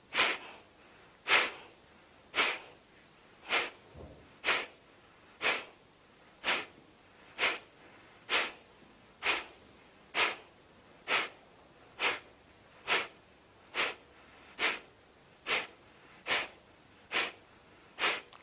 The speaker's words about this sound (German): Drei Runden Kapalabhati. Atme zunächst vollständig aus. Atme ein, Bauch hinaus. Beginne.